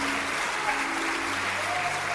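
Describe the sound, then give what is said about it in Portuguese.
A church audience applauds during a worship service with steady, dense clapping throughout, while faint sustained tones hold underneath. “Vamos aplaudir mais o Senhor Jesus por cada vida que está chegando.”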